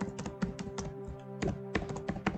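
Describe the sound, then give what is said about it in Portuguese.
Furious typing on a computer keyboard rattles out as rapid, uneven clusters of sharp clicks and taps over a faint, steady tone of calm music. “Eu gosto do contraste da música calma hum. e do quão furiosamente tu estás a teclar.”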